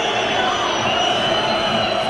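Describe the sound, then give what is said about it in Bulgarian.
A football stadium crowd boos during a Levski match against Salzburg, forming a dense, steady roar without pauses. “Освирквания.”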